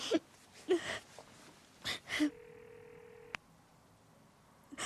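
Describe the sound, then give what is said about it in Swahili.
A phone line gives a single steady mid-pitched electronic tone lasting about a second as a call is placed, preceded by a few short soft noises and cut off by a sharp click. “Lazima nimpigie simu Marcel. Lazima nimpigie nimwambie kuwa siwezi kuendelea.”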